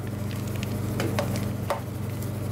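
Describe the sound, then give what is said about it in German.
Freshly churned ice cream comes out of an ice cream machine: a steady low motor hum with a few soft, wet scraping bursts, and no voices. “Schon nach etwa 10 Minuten hat die Maschine ihren Job erledigt. So, und jetzt kommt das Eis raus.”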